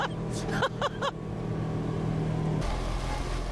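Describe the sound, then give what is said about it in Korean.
A specially built, snowplow-like shuttle bus rides toward a gondola platform, its engine giving off a steady low rumble. A voice briefly sounds over it at the start, and the noise shifts near the end. “곤돌라를 타는 승강장까지 이 특수 제작한 셔틀버스를 타고 가지요. 간다! 어머나 세상에 또 이런 것도 처음 타보네. 이거 제설차 아니야?”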